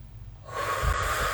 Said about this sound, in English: Take a deep breath in and out just to reset.